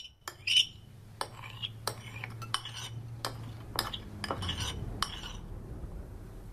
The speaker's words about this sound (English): At the dinner table, Anderson scrapes his bowl with his spoon.